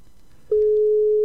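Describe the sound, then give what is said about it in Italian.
A phone call's ringing signal: after a moment of near quiet, a single steady tone starts and holds unbroken at an even pitch to the end. “la chiamata dà il segnale. Lui dovrebbe rispondere.”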